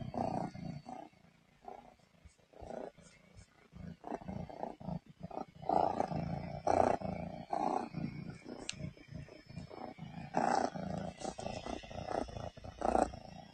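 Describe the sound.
A cat purrs with a quiet, low rumbling that comes in uneven pulses and rough louder bursts, with no talk over it.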